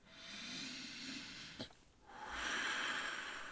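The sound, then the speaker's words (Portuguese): A woman takes a deep breath: a long soft airy inhale, a short pause, then a fuller breathy exhale, faint and alone. “Vou respirar fundo.”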